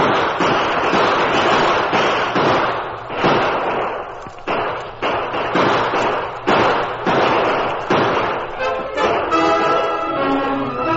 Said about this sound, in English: open fire